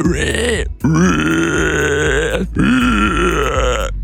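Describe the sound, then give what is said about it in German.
A voice imitates a screaming wild boar with three loud, harsh, strained squeals and grunts, each split from the next by a short break. “Und uns ist zu Ohren gekommen, du kannst eine Wildsau. Eine schreiende Wildsau, ja.”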